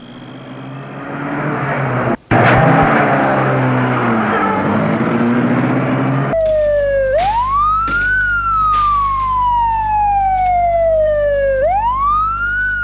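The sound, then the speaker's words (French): An ambulance siren wails at night after about six seconds of loud rushing noise. The siren's pitch sweeps slowly up and down in long cycles over a steady low hum. “Puis ferme l'arrière de l'ambulance, ils entrent et mettent en route l'ambulance.”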